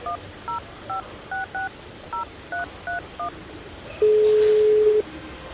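Telephone keypad dialing tones as a caller places a call: nine short beeps in a quick, uneven rhythm, then a louder steady tone lasting about a second.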